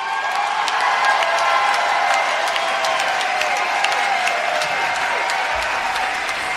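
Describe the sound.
Dense, sustained applause from a live rock concert audience, with many overlapping claps forming a steady, loud wash that holds at an even level throughout.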